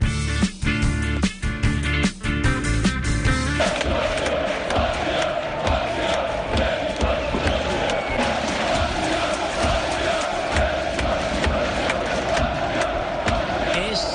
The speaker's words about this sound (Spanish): Afición de Montenegro, es la afición de Montenegro, de la selección de Montenegro, el pasado lunes, coreando el nombre de Andrija Delibasic en el partido